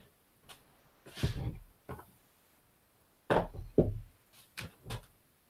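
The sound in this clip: Knocking on a door: several faint, dull knocks, some coming in quick pairs, spaced across a few seconds of near silence.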